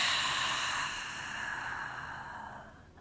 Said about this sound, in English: Let's take a few deep breaths here. In through the nose. And out through the mouth.